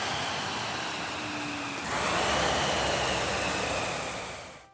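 A Concept2 SkiErg's fan flywheel whirs as a steady, airy whoosh, stepping up louder about halfway through and holding before fading out at the end.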